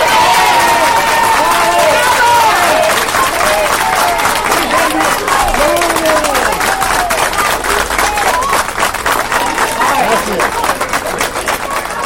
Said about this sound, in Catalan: És el so dels veïns de Rasquera, una vuitantena d'ells es van concentrar ahir al migdia. Ho van fer davant d'aquest únic caixer automàtic que té la població i que pertany al banc BBVA.